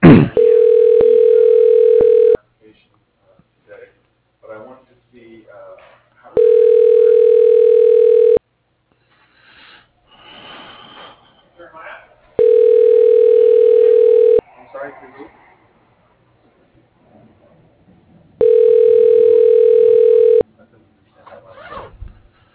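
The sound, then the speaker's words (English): Telephone ringback tone sounds while a call goes through to an office extension: four steady rings, each about two seconds long, evenly spaced with pauses holding faint background noise. “dialing Joseph Kaufman, extension 111.”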